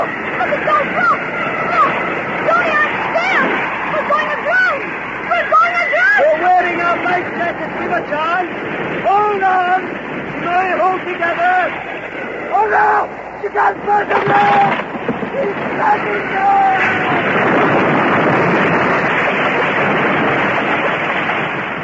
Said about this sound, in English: We're racing in on top of this wave. Tommy, we're going to drown. Hold on, Jake.